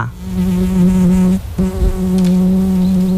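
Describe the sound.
A fly buzzing in a loud, steady drone that cuts out briefly midway and then resumes at the same pitch.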